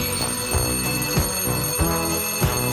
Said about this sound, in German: wenn der Wecker schellt.